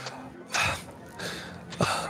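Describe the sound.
A voice imitates a sickly, worn-out character panting, with three breathy, gasping exhalations at a steady pace. The breaths are fairly quiet, and no words are spoken.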